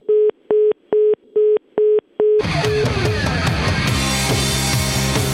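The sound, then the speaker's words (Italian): A telephone busy tone sounds after the caller hangs up: six short, steady, evenly spaced beeps. A loud, dense wash of sound then abruptly takes over. “Ma perché ci ha sbattuto il telefono giù?”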